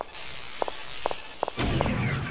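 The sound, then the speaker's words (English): Video game footsteps as a character sidesteps to the right and then walks forward: four quick doubled taps, spaced fairly evenly over a steady hiss of background noise. “Now I'm going to sidestep to the right, and then walk forward.”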